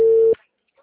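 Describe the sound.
An unanswered phone call gives a flat, steady telephone tone that holds briefly and then cuts off abruptly. Near-silence follows.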